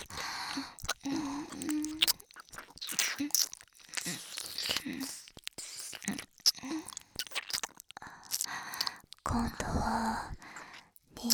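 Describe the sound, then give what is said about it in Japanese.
ASMR ear licking, with wet mouth sounds on an earlobe: quiet, irregular smacks, squelches and slurps come in short bursts separated by silences, mixed with soft whispered breaths. “兄さんの耳たぶ、おいしい。舐めてると、どんどんお兄さんのお耳が愛おしくなっちゃうね。”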